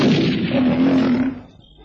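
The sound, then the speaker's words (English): A gunshot from a former clay pigeon shooter firing at a lion during a hunt: one heavy, booming blast that rolls on loudly, then fades away over about a second and a half. “At the moment of firing, the Harvard clay pigeon shooter didn't know what he was aiming at.”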